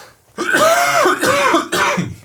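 Throat clearing and coughing: three loud, rough, voiced bursts in quick succession, each breaking off abruptly, with no speech around them.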